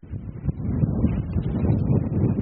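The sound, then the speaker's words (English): Wind blows hard outdoors in northwestern Montana as snow begins on a muddy road, making a loud, continuous low rumble with uneven buffeting gusts. No voices are heard. “Ooh, this wind, starting to snow now.”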